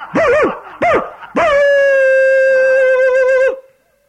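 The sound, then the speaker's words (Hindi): Dogs barking and howling: two short, loud yelping barks that bend up and down in pitch, followed by one long, steady, high howl that holds for about two seconds before cutting off. “देखो देखो, कुत्तों ने भौंकना शुरू कर दिया।”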